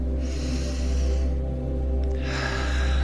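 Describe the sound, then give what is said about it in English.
A deep, cleansing breath drawn in slowly and then released in a long, airy exhale during a morning gratitude meditation, both soft and set over a steady, low tonal backdrop. “taking a nice deep cleansing breath in and release, letting go”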